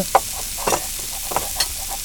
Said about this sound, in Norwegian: Så jeg skal nå steke dem. Jeg har dem i panna.